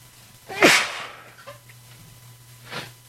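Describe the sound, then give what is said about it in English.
A sneeze from a person turned away from the microphone: one sharp, breathy burst, then a softer second burst a couple of seconds later, over a low steady hum. “I apologize, I was sneezing and I didn't want to sneeze into the microphone.”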